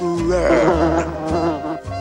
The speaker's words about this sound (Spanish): Una mosca se posa en el hocico del oso.